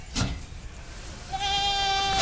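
A goat bleats as it is set on a weigh scale, giving one long, steady, nasal bleat through the second half after a brief rustle near the start.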